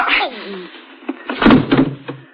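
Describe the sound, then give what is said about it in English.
A door being opened gives a few dull thunks and clunks in quick succession, moderately loud, with the heaviest knocks near the middle. “Open the door. Now turn around. Don't try anything or I'll have to shoot. Walk in.”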